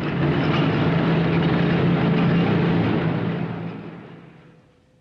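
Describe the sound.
A convoy of military vehicles, including a half-track, rumbles through the desert: a loud, steady, low droning roar that fades out over the final second and a half.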